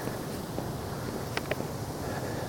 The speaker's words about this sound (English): It's very windy today. Feeling that wind chill factor.